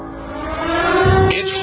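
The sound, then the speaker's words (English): A car engine hums steadily as the driver pulls up to a studio building, a low continuous drone that swells slightly in loudness midway and then eases off. “I'm Alex Jones, live from my car. As we speak, I'm pulling up to the studios”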